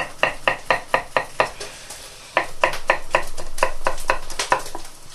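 A knife chops food on a board in quick, even strokes: one burst of about six crisp cuts, a brief pause, then a second run of chopping over a steady sizzling hiss from a frying pan.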